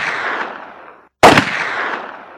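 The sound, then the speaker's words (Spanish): A gunshot fired at a man cracks sharply after a brief silence and decays in a long, noisy roar. The fading tail of an earlier shot comes before it. “Puriskevich, que después de fallar en dos ocasiones, lo derribó con otros dos disparos.”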